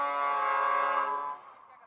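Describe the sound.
A chiva bus sounds its horn as it arrives: one long, steady, brassy blast that holds for over a second and then cuts off abruptly, leaving only faint background noise.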